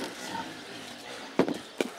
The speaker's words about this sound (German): Nächste Station der Eiltempofütterung. Die schwäbisch-hellischen Schweine.